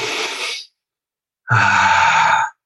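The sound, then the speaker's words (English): A deep belly breath: a long, airy inhale, a brief pause, then a loud, drawn-out exhale with a voiced, sighing tone. “take one massive deep belly breath like this”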